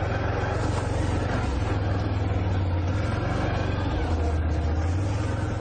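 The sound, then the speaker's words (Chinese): A BRP all-terrain vehicle drives through mud with the throttle held. Its engine gives a loud, continuous low drone whose pitch dips briefly twice before recovering. “我们继续走，含着油门往前进，然后感觉到车子车轮确实有一点点滑移啊，因为泥泞，但是前进的动力还是很够。”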